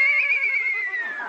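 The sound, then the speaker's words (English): A horse named Dobbin, hitched to a wagon, lets out a single whinny: a high, wavering neigh with a trembling vibrato that sags lower toward its end, heard alone. “Well, can't the horse pull for a while? I'm tired. Well, all right. Hey, Dobbin, get out of that wagon.”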